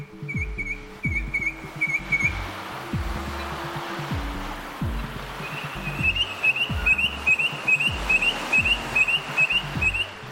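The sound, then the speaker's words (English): A noisy miner, a native bird, gives many short, high whistled chirps in two runs, a brief one at the start and a longer one later, over low, uneven thumping rumbles. “That's the sound of the noisy miner, a prolific native bird that's also known to bully their neighbours.”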